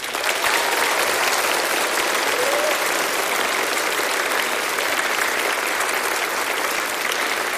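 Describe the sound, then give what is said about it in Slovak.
Applause from a studio audience, sent to viewers in schools across Slovakia, rises as a loud, dense, continuous clapping from many people and holds steady throughout. “Tento potlesk, ktorý teraz zaznie, poputuje všetkým našim divákom v školách na celom Slovensku.”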